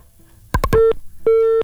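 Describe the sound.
Telephone busy tone after a call is cut off: a quick cluster of clicks, then two steady, loud mid-pitched beeps separated by a short gap.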